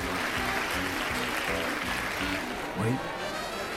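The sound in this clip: Applause from a circus audience for a young volunteer called into the ring, a dense, steady clatter of clapping that lasts the whole clip, with a voice talking over it.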